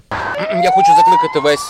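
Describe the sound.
Air raid sirens sound over Kyiv during a military invasion, a loud, steadily rising wail heard beneath people talking.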